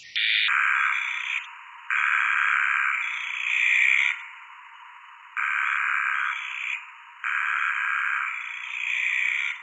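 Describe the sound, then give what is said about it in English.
A granite squeaker frog's bitonal call, slowed down: a few long, buzzy, high-pitched notes separated by short gaps, each one stepping between two distinct tones. “Have a listen to this granite squeaker. Its call is actually bitonal.”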